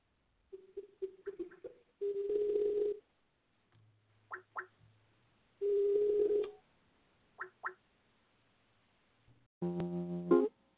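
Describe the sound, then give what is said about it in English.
Electronic call tones from a Skype call being placed: short repeated blips alternate with longer buzzy bursts, three bursts in all, the last turning into a brighter chiming tone. No one speaks. “Let me call you on Skype and see if it'll say add to call and throw me on there.”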